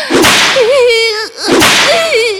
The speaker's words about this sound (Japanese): 水ぶくれになった、ムチの後に、再びムチ打つだなんて。